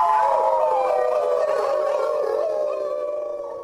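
Several wolves howling together at a trading post in New Hampshire, long overlapping tonal howls that drift gently downward in pitch, sustained and fairly loud before cutting off abruptly.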